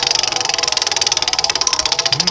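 A prize wheel spins with rapid, even ticking, many sharp clicks in a steady rhythm that carry on throughout at moderate loudness.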